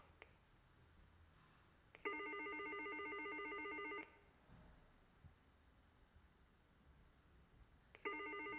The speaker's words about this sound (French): Appel en cours.